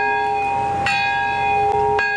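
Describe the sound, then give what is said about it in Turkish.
A peace bell rings at the atomic bombing memorial ceremony in Nagasaki's Peace Park. A few clear strikes ride over a sustained, humming metallic tone with several steady ringing partials. “Bombanın patladığı anda barış çanı çalındı, saygı duruşunda bulunuldu.”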